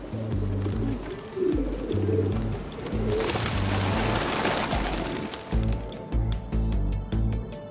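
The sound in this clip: Pigeons cooing in London, deep throaty coos repeating in short phrases that overlap one another, with a brief broad rustling burst in the middle before the cooing picks up again.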